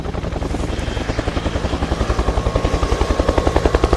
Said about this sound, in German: Zwanzig Minuten später startete der Helikopter mit neuen Piloten und flog in die Wildnis, immer der Piste nach, Richtung Babylon.